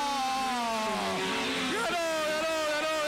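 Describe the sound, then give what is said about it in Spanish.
Race car engines roar as the cars come toward the finish line and the checkered flag at the end of a race. A loud, continuous engine whine dips and then climbs in pitch as the engines rev. “se va a terminar, va a caer la bandera cuadro nomás. Primero Román Mastrog, segundo está Federico Rodríguez, tercero Thiago Carrera, cuarto Miguel Alberto Olivera. Ahí viene Mastrog, va a ganar Román Mastrog, va a ganar.”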